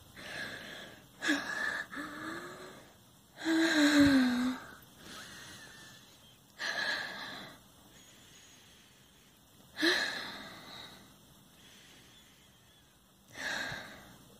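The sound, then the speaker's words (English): Heavy breathing from someone catching their breath after exertion in the heat: several loud, gasping, slightly wheezy breaths come a few seconds apart, with quiet pauses between them and no talking. “I need a moment to catch my breath after that one.”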